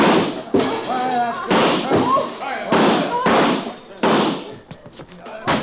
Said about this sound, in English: Because I do not want you to spoil your fun by running outside and chasing me, I think I shoot out the lights before I go.